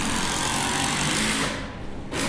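A screw being driven into a cedar log, four and a half in length, gives a loud, steady buzzing whir that dips briefly near the end and then picks up again.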